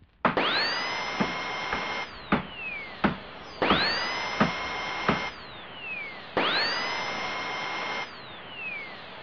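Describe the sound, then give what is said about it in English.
A power drill bores through a computer hard drive in three long, loud whining bursts. Each burst spins up, holds a steady high whine, then winds down, with sharp clicks and knocks between them. “Drilled right through the f***ing bastard's hard drive.”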